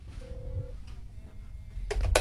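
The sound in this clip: A call comes in on a studio phone line: a brief, faint telephone tone, then line hiss and a couple of sharp bursts of noise.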